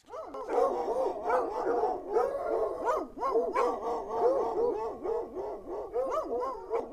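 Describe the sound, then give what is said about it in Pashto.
Stray dogs in the streets of Kabul bark loudly and persistently, with many overlapping barks, yips and whimpering cries in an irregular, busy rhythm. “د کابل ښار ډیری لارې کوڅې د شپې لخوا د کوڅه ډبو سپو چیغو او کوکارو په سر اخیستې وي.”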